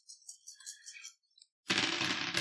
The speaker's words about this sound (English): Jesus, that's a lot of dice. See, that was two more. It was two more, and I dropped them.